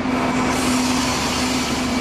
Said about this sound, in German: 14.02 Uhr, da kommt der Zug.